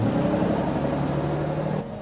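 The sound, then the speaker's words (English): A bus pulls in with a low rumbling engine and a steady droning hum, holding loud and even before the sound drops off near the end. “Koba wants a closer look and buys a copy as the bus finally arrives.”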